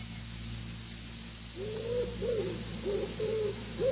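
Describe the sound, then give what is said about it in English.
A wood pigeon coos softly, with several low, rounded calls repeated in a loose rhythm over a steady low hum. “From the deepest wells of silence, the wood pigeon drew its bubble of sound.”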